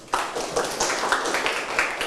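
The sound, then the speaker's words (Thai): A classroom of students claps hands together in dense, irregular applause that starts abruptly and continues for about two seconds. “ปรบมือ”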